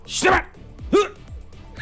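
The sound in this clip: Two sharp, loud dog barks used as a sound effect, separated by a short pause, followed by a faint trailing sound.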